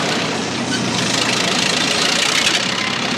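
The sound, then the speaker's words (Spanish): A heavy machine's engine rumbles in a steady, dense drone as it is driven toward a sand pile, holding a constant loud level with no clear pauses or changes. “Gira el volante y la máquina se aproxima a un montón de arena. Retrocede, otras máquinas dan media vuelta y se alejan.”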